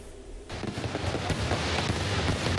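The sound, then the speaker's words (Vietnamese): Fireworks explode at a fifteen-minute display in Hanoi celebrating independence. A dense, continuous wash of crackling and rumbling bursts starts abruptly after a quiet half-second and stays loud. “Tại Hà Nội, màn trình diễn pháo hoa kéo dài 15 phút tại nhiều địa điểm đã thu hút đông đảo người dân và du khách.”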